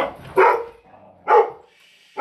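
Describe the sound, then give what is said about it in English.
A dog barks indoors at home in loud, sharp bursts: three barks spaced about a second apart with quiet between, the last one cut off at the end. “Sorry for the dog barking.”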